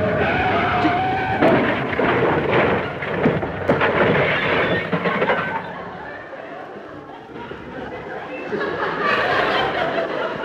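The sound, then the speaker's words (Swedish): A car brakes and skids as it drives down off a sidewalk near a newspaper kiosk: a broad, rumbling screech, loud for about five seconds, then quieter before swelling again near the end. “Kör ner från trottoaren med samma här hörni. Kör ner från. Akta tidningskiosken, akta bromsen. Bromsen.”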